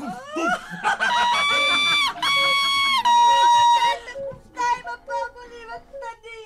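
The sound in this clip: A young girl crying loudly in long, high, drawn-out wailing sobs, then shorter broken sobs toward the end.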